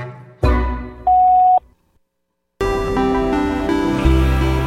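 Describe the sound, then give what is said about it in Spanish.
Answering machine tone before recording a message: a single steady mid-pitched beep follows a short burst of sound, then a brief silence and a sustained harmonic tone. “Al oír el tono, grabe su mensaje. Para finalizar, presione numeral.”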